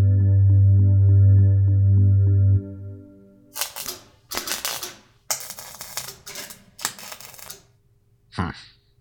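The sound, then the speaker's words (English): Ratcheting clicks of a socket wrench from a toolkit come in several short, rapid bursts with pauses between them, after a steady low hum fades out. “Socket wrench. Socket wrench.”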